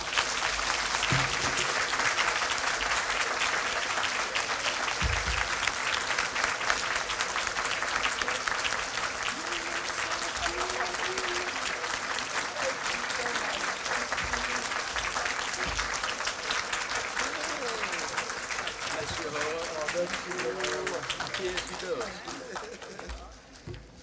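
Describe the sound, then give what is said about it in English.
A warm round of audience applause welcomes a speaker at a Talladega County event. The dense, continuous clapping lasts for more than twenty seconds, with some voices underneath, and thins out near the end. “Would you be kind enough to give a warm Talladega County welcome to Ms. Amelia Robinson?”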